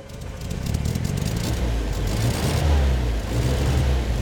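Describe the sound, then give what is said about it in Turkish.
Car engine running on real petrol after being started with the starter: a loud, continuous low rumble that holds steady for the whole stretch, with no voices over it. “Bakalım bu sefer hakiki benzinle çalıştırabilecek miyiz? Bunu denemek istiyorum. 10 dakika sonra ikinci denemeye hazırız. Konta aç ve bas marşa. Bastım.”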